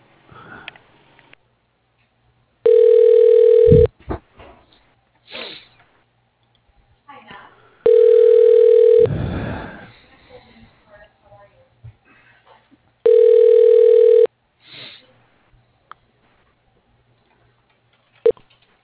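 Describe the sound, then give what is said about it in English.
Telephone ringing while a call is transferred to voicemail: three long, steady, mid-pitched ring tones spaced several seconds apart, with soft rustling noises in the gaps. “does he have a voicemail? Okay, I'll transfer you there.”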